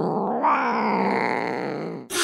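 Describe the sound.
A house cat in a film gives a long, drawn-out groaning cry, a low harmonic tone held for about two seconds that thins slightly toward the end before an abrupt cut to a short noisy burst.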